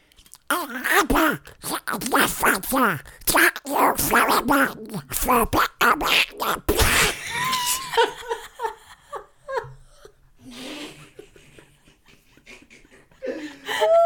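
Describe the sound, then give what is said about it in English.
A voice imitates a famous cartoon duck, producing a long stretch of garbled, squawky babble. Laughter and ordinary talk follow. “Who would like you to give a shout out in the voice of Donald Duck? Donald Duck, one that I struggle with. He would say,”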